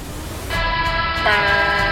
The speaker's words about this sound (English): That's the sound of the horn.